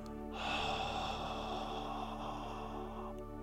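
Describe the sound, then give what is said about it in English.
A long exhale through the mouth during a paced breathing exercise: a steady, airy breath lasting about three seconds over a low, constant hum, then stopping. “Then exhale through the mouth with the sound of”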